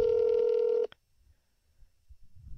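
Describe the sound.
A phone call ringing on speakerphone: one loud, steady electronic ring tone that lasts under a second and cuts off abruptly, followed by near silence with faint low rumbling.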